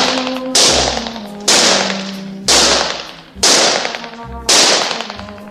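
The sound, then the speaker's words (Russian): Five sharp gunshots ring out at targets shaped like German soldiers in a shooting gallery. Each loud crack trails off briefly before the next, at a steady, even pace over a soft tonal background. “Тир. Майор что-то говорит Жене на ухо. Женя стреляет по мишеням. Мишени в виде немецких солдат.”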